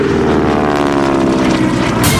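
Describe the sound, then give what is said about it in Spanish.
Aircraft engines roar as a plane takes off, a loud, steady droning hum with a strong, even propeller tone that fills the whole clip without any talk. “El avión se sacude. Los motores empiezan a rugir, primero indecisos, después con fuerza. Y entonces el avión despega.”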